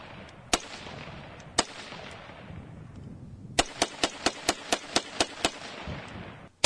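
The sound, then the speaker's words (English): Sharp gunshots crack during a shooting session: two isolated shots, then a quick, evenly spaced string of about nine, and one more at the very end, each a loud, abrupt burst over steady background noise. “Well, I mean, you are shooting 100 rounds straight.”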